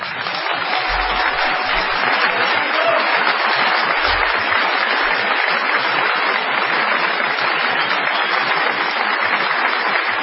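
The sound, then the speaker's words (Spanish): Audience applause at the end of a theatre show, a long, dense and sustained ovation of many hands clapping at a steady, full level. “esto que ahora ustedes sienten como un aplauso y que para nosotros es lo que veníamos a dar.”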